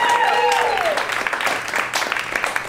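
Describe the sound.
Audience applause at a live show, a dense steady wash of clapping with some crowd noise that holds throughout and tapers slightly near the end.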